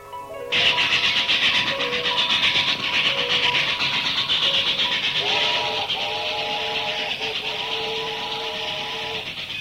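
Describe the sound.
A train heading out on a morning run: a sudden hissing rumble starts just after the beginning and holds steady throughout, overlaid by sustained whistle-like tones that waver in the second half.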